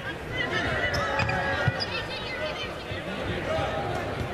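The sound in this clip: A basketball bounces on the court during a women's college game between Butler and Wisconsin, with quick dribbles under a commentator's talk and a murmuring crowd.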